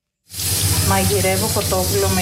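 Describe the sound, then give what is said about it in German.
Chicken meat sizzles on the stove, the hissing starting abruptly and then running steadily and loud, with a voice talking over it. “Heute gibt es Hühnchen mit Bandnudeln. Ich koche erst das Hühnchenfleisch und bereite die Tomatensoße zu.”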